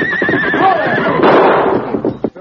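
A big stallion gives a long, loud, wavering whinny that trails off near the end.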